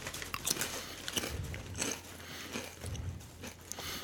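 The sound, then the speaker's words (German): Cracking and crunching of a tree breaking in a video game, a quiet series of dry crackles and snaps. “Der Baum lebt. Und jetzt bricht der Baum.”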